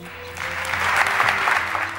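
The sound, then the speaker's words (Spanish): An ovation for an apostolic administrator after words of thanks at a jubilee-year church occasion: dense clapping that swells after the first moments and holds strong, with a low tonal hum underneath. “Palabras de agradecimiento a las que el administrador apostólico también respondía y a las que la gente respaldó de nuevo con una ovación.”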